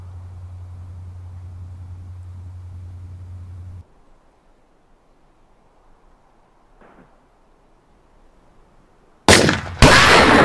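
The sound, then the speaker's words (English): Gunfire: two loud, sharp blasts burst out close together near the end, after a long quiet stretch with a low steady hum at the start. “You fucking shot me!”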